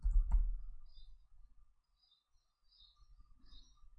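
Clicks from a computer keyboard as a stock ticker is typed in: a few soft key taps at the start, then near-quiet with faint scattered ticks.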